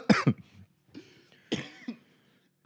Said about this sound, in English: These are smoker coughs, not Corona coughs.